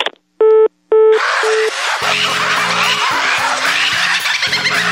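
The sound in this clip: Telephone dialing tones on a radio call-in line: a few short, steady electronic beeps sound in quick succession, then a loud, dense continuous noise takes over and runs to the end.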